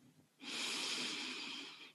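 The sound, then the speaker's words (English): A single long, deep inhale through the nose, heard as a steady airy hiss that starts after a short pause and lasts about a second and a half before tapering off, with no talk. “Take a deep inhale through the nose”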